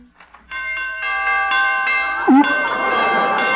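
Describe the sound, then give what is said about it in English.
Door chimes ring as a door is opened: several bright metallic tones struck in quick succession, overlapping into a sustained, shimmering ring that carries to the end. “Oh, those door chimes.”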